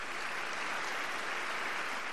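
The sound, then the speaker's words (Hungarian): A parish community applauds at a confirmation given by the Pope: a continuous, even wash of many hands clapping together, soft and steady from start to finish. “A megható pillanatokra a plébánia közösség tapsal válaszolt.”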